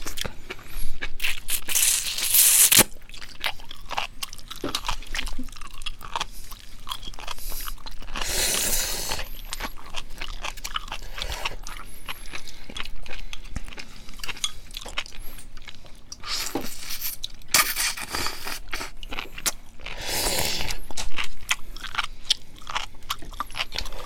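Loud, crunchy biting and chewing of a fungus-type food eaten by hand, with many sharp crunches and brief bursts of wet mastication in an uneven rhythm, heard alone without talk.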